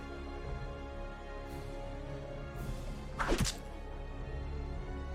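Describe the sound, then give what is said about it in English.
A single heavy thunk as someone's head is bashed: one sharp, dull impact with a brief swooshing tail, standing alone over a low, steady hum. “Doing it again. Just keep bashing his head. Go to sleep.”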